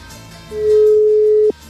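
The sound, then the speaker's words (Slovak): Telephone ringing tone on a call: a single steady mid-pitched tone lasting about a second, over a faint low hum. “O, zvoní ešte, funguje.”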